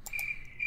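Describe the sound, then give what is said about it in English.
Crickets chirp in a faint, steady high-pitched trill broken by short pulsing bursts, with no voices present. “Hey, don't play the crickets. Don't play the cricket.”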